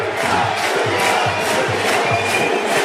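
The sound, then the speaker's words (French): Loud rugby crowd at Les Mégirales cheering on USAP, a dense, steady roar of many voices carried by a regular rhythmic pulse, like chanting or clapping in time, with no pause throughout. “Ouais, le public des Mégirales qui préfère encourager l'USAP.”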